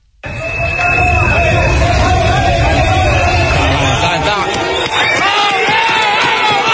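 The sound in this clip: After a 7.4 earthquake in Cali, Colombia, a crowd outdoors shouts and cheers. The loud, dense babble of many voices begins abruptly after a moment of near silence and stays strong throughout.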